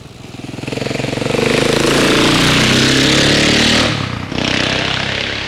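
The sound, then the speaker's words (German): A vehicle engine driving through a roundabout, a loud, rough, continuous drone whose pitch shifts as it moves, briefly dipping near the end before picking up again. “Ich fahre dann einmal durch den Kreisel.”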